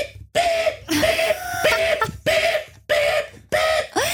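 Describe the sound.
A human voice imitates a large construction truck unloading, producing a string of loud, rough, throaty bursts separated by brief gaps, heard alone.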